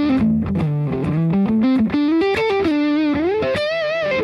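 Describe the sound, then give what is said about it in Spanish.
Distorted electric guitar played through a Nero effects pedal with the amp switched on, giving a loud, saturated run of picked notes and held tones that step up and down in pitch and include one rising slide, heard alone. “¿Cómo suena el Nero y con el ampli ya prendido?”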